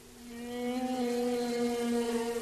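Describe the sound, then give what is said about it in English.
A male humpback whale sings one sustained, tonal moan with strong harmonics. The pitch holds steady, and the sound swells in loudness at the start before staying even to the end. “It's the song of a male humpback.”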